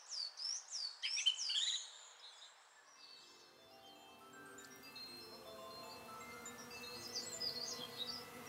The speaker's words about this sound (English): this indicates the presence of a song thrush, as they are the only birds that use an anvil to remove snails from their shells. Their song is a phrase of a few syllables repeated 2 to 4 times.